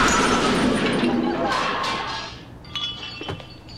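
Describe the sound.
A car crash as an Avia truck slams into a Porsche: a loud, broad smash of noise that slowly dies away, followed by a few faint glassy clinks and knocks.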